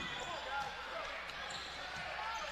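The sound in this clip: Basketball dribbled up the court during a basketball game, dull repeated bounces that are faint beneath steady crowd noise.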